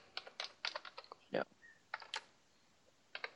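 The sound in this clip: Fingers type on a computer keyboard in quick, irregular bursts of clicky keystrokes with short pauses, fairly faint.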